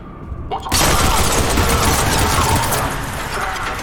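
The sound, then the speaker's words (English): Video-game gunfire aimed through windows at guards: a dense, loud barrage that kicks in after a brief quieter lead-in and rattles on steadily to the end. “We can shoot through the windows at the guards, or at the Cerberus operatives.”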